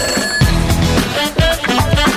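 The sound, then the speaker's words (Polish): A telephone rings with bright, loud, repeating tones in a steady pulsing rhythm, sounding alone with no voices over it. “Telefon już dzwoni, więc sprawdźmy, kto po drugiej stronie.”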